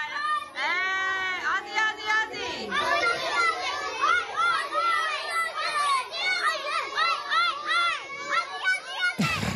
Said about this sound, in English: That's the sound of a group of very excited kindergartners from Roselle Public School in Sydney